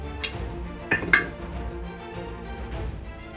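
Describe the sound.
Dice clatter across a table during a tabletop game, a few sharp clicks standing out over a faint low background.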